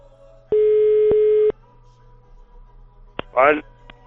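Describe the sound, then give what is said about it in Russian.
Telephone tone while placing a call: a single steady mid-pitched beep lasting about a second, followed later by a sharp click and a brief chirpy burst. “Ну давай еще раз попробуем позвонить Панину.”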